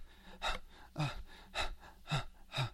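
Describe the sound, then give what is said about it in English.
A voice imitates rushed, stressed breathing with five quick, sharp gasping breaths in an even, hurried rhythm, alone and without talk. “if you're like really rushed or stressed out, your breath's kind of going to be like,”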